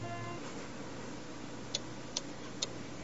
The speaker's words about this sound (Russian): В гостиной говорящие часы настойчиво пели. Тик-так, тик-так